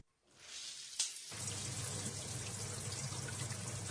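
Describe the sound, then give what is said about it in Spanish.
A shower is turned on. A faint hiss builds, a sharp click follows, and then a full, steady rush of running water continues evenly to the end. “Abro la ducha. Me meto por inercia.”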